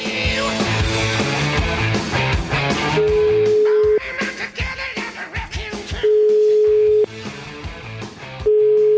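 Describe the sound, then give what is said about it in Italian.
A telephone ringback tone as a call to a senator's phone connects: steady single-pitch tones, three in all, each roughly a second long with gaps between, over loud background music. “Rispondi al telefono, Francesco.”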